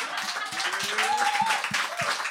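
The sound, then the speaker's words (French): Audience applause breaks out after a call to applaud a guest at a live event, with a steady patter of scattered claps of moderate loudness and a faint voice or tone running through. “est-ce qu'on peut l'applaudir s'il vous plaît?”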